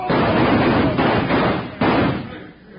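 Gunfire in a Western radio drama shootout: a few heavy, booming shots blur into a dense, continuous roar of noise that fades toward the end.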